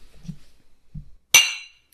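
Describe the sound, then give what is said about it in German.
Glasses clinking in a toast: one sharp, bright clink rings out and fades within about half a second. Two soft, low knocks come before it in an otherwise quiet moment. “Warte, wir müssen noch anstoßen.”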